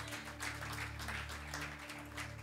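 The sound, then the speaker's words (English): Congregation clapping hands for Jesus during a church sermon: faint, continuous applause from many people, even in level, with low sustained tones running underneath. “If you believe in that, clap your hands for Jesus.”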